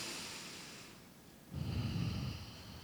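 Faint, airy breathing during a guided deep-breathing exercise: a soft, hushed breath sound that swells into a fuller, longer breath in the second half, with no talking.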